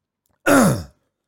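Throat clearing, a single harsh voiced rasp of about half a second with a clearly falling pitch, heard alone.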